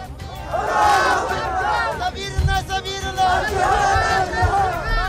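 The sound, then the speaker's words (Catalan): A large crowd celebrates in a street in Afghanistan: a dense mass of men's voices shouting and cheering together in loud, surging waves. “El que sentiu és el so d'una celebració multitudinària al carrer”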